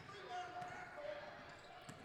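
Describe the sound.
A basketball dribbled on a court during a Woodland Bobcats game against TCC, faint, soft bounces under steady play-by-play commentary.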